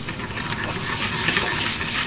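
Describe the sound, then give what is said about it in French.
Butter foams and sizzles in a frying pan while artichokes and duck cannelloni are being cooked. A steady, fairly loud crackling hiss continues throughout. “Donc là, le beurre est en train de mousser. Alors il ne doit pas brûler, bien sûr.”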